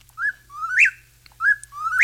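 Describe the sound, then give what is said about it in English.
A whippoorwill calling: two clear whistled phrases, each a short note followed by a longer, louder slurred sweep that climbs in pitch, separated by a brief pause against quiet background. “That, of course, is the whippoorwill. And whippoorwills are back.”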